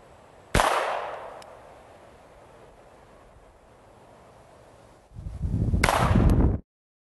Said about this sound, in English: So now I'm going to go ahead and load it. Cock it. And now I'm ready to shoot.